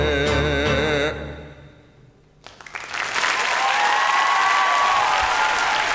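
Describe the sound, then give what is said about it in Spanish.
Applause from an audience breaks out after a song's last notes fade. After a brief quiet gap, a dense, loud wave of clapping swells and sustains steadily to the end. “Mucho aplauso a esta gente.”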